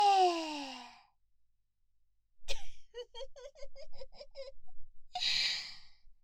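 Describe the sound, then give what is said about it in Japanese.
Heavy pig-like snorting breaths through the nose: a rapid run of short grunting snorts set between longer breathy exhales, with a sighing voiced breath at the start. “はあ、なんか鼻息だけで湿ってきそう。ふごふごしちゃって豚みたい。”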